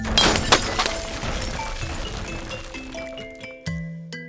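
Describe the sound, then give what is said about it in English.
Glass and metal shattering as a clock's glass and copper casing bursts apart in an explosion of gears: a dense crash with clinking debris and lingering metallic ringing tones, then another sharp hit near the end. “I imagined the clock, the hour hand specifically, ripping from its glass and copper casing, and in an explosion of gears and metal,”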